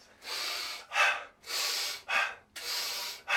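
Three deep breaths, each a long airy draw followed by a shorter, sharper push of air. They come in an even, repeating rhythm of loud, rushing breath sounds with no talk.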